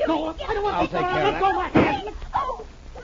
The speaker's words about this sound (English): The shot went wild, I'm happy to say.